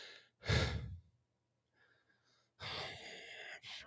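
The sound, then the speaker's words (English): Stressed, shallow breathing from a person: one sharp, loud breath, a quiet pause with faint breath noise, then a longer rushing breath with a brief dip near the end. No talk. “I'm breathing like this. It's super creepy.”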